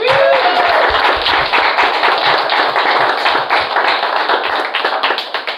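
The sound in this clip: Loud applause from a comedy show audience welcoming a contestant comedian to the stage, a dense, sustained wash of clapping that eases slightly toward the end.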